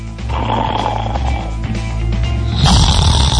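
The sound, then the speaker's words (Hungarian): Loud snoring: a rasping, rumbling snore that continues throughout and turns into a harsher, brighter snort near the end. “Mi horkol?”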